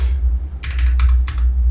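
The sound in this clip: Someone types card details on a computer keyboard. Quick bursts of crisp key clicks come in a few clusters over a loud, low, steady hum.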